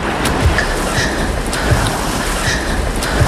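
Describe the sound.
Waves washing onto a beach, a loud, continuous hiss of surf with occasional low thumps as the water breaks.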